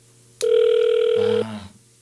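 An unanswered telephone rings as one long, steady electronic tone lasting about a second, then drops to a lower, quieter tone that fades out; no one speaks.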